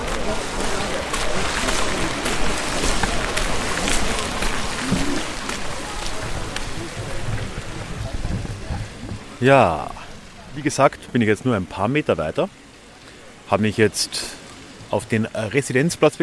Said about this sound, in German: Man hört wahrscheinlich im Hintergrund gerade den großen Brunnen hier.